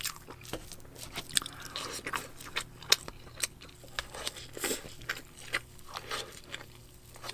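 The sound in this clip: Someone eats pancakes with syrup using a fork, making faint chewing and wet mouth sounds. Many small clicks, smacks and soft crunches are scattered irregularly, with no talking.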